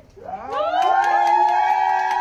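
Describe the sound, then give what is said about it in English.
Hospital staff cheering and applauding in a hallway: a voiced whoop rises in pitch, then holds as a sustained cheer, with a run of quick claps beneath it throughout. “Cue the party hats and applause.”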